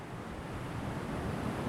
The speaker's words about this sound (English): The sounds of the waves soothes you as you take in your surroundings.